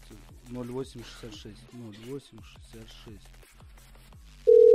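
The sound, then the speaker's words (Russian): A loud, steady telephone tone begins abruptly near the end of a call being dialed, after a man speaks Russian. “Набираю.”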